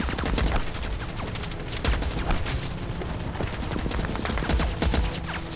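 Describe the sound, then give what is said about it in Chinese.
Heavy anti-aircraft machine guns fired horizontally by South Korean troops in a battle, dense rapid bursts of gunfire with heavier booming impacts mixed in, loud and continuous throughout. “钢射机枪平射，运输中断。 南朝鲜军竟然用高射机枪平射。”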